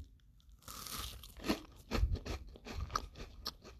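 Crunchy biting and chewing of a galette: a few crisp, crackling crunches in irregular bursts, some sharper and louder than others, with no talking.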